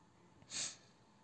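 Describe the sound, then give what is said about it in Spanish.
One short, wet sniff from a person with a runny nose, a faint hiss that swells and fades quickly against quiet background. “no estoy inhalando nada, o sea, tengo mocos, también entiendan.”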